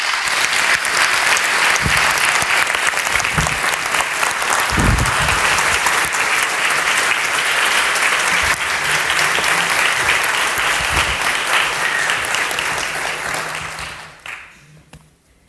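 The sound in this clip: An audience applauds as a performer comes on stage. Dense, even clapping holds steady for most of its length, then dies away near the end.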